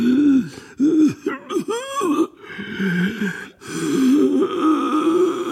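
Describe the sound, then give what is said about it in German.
Inarticulate, rough groaning and moaning from an old man's voice, a run of wavering, strained moans and gasps rising and falling in pitch, fairly loud and continuous with brief breaks. “Und währenddessen hört man Gottvater unartikuliert rau stöhnen und jammern.”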